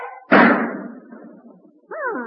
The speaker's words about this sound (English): Looks like you hit him in the leg. And with just one shot, too.